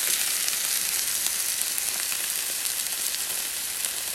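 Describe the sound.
Gyoza frying and sizzling in a pan, a dense, bright, crackling hiss that stays loud and steady with small pops scattered through it, and no talk.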